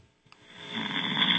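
Snoring over a phone call from a sleeping caller: a thin, band-limited line with a couple of faint clicks, then one long raspy intake snore that swells and holds to the end.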